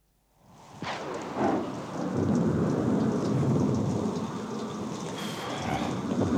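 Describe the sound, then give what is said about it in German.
A thunderstorm with hot rain pouring onto glowing sand on Venus fades in from silence, with a sharp thunder crack early on, then a steady, loud roar of heavy rain with rumbling beneath. “Puh, der Regen ist heiß, der Sand fast glühend.”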